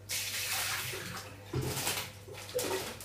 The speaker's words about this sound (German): Wasser ansetzen. Ich nehme mal das alte Wasser raus